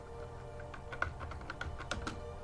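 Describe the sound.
Faint typing on a computer keyboard while text is entered into a document: many quick, light keystrokes that click in an irregular, steady run.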